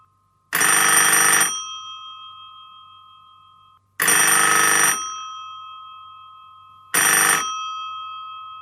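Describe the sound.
Telephone ringing: three evenly spaced bell-like rings, each starting loud and fading away, with silence between them and no voices.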